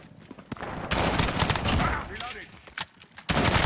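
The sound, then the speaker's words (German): Gunfire from a shooting video game comes in several rapid bursts of shots, with quieter gaps between the bursts. “Schießt zuerst, bam, tot. Da hat er in den Kopf geschossen.”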